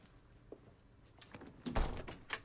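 A door at a therapist's consulting room swinging shut: a faint knock early on, then a heavier low thud followed by a lighter knock, with no voices.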